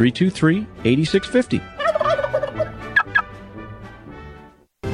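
Turkeys gobble in a rapid, warbling series of throaty calls, loudest at the start and trailing off into fainter gobbles.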